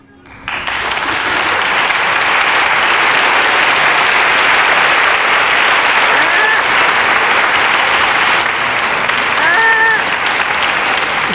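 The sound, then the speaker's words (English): Loud applause sound effect added after a birthday song: many hands clapping in a dense, sustained burst that rises quickly and holds steady, with two short high squeaks cutting through partway along. “I added applause and a baby sloth to the end of that, just for fun.”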